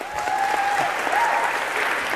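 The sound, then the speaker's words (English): Lecture audience applause, loud and steady, with many hands clapping in a continuous wash and no pause throughout. “A round of applause, if we could.”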